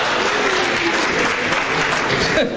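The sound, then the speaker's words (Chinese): An audience gives loud, dense applause, steady and unbroken throughout, easing slightly at the very end. “谢谢大家雷鸣般的掌声，谢谢。”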